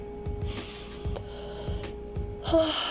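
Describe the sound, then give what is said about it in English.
An airy intake of breath during a guided relaxation exercise, soft and steady at first, with a stronger rush of air near the end. “So let's begin by taking a deep breath in.”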